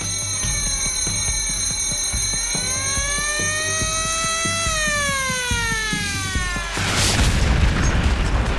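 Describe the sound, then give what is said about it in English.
A torpedo strikes a ship: a steady, alarm-like wail with gently shifting pitch sounds for several seconds, then a loud, broad explosion bursts in near the end and rumbles on. “Nothing can prepare you for the impact of a torpedo for the first time.”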